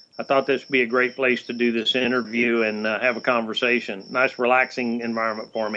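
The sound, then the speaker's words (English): Crickets chirp on the back porch of a farm in South Texas, a steady faint high trill running beneath continuous conversation. “I hear the crickets in the background.”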